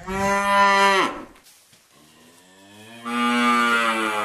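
A cow moos twice in the barn of an organic farm in Lower Austria, two long, loud lowing calls separated by a brief pause, with no voices.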